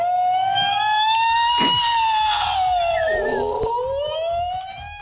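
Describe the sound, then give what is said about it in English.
A person's voice imitates a Bigfoot call with a long, loud, harmonic wail like a siren. The pitch climbs, dips, then rises again before the wail trails off. “A Bigfoot sounds like this.”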